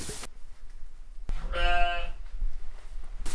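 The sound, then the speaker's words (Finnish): A ram bleats once, a single wavering, harmonic call lasting about half a second, over steady low background noise. “Mikä se armas on? Pässi.”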